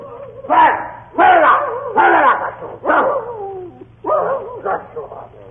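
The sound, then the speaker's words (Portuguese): A mongrel dog gives a string of several loud, whining yelps and whimpers with a rising-and-falling cry, leaving short pauses between each one and a low steady hum underneath. “Nós tínhamos em casa um cachorro tipo vira-lata, muito amigo da meninada.”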